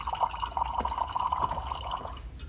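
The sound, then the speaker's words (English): Tea poured into a cup at a table: a thin, faint trickle of liquid with small dripping, splashy ticks over a soft steady flow, running continuously and easing toward the end. “Catherine pours tea”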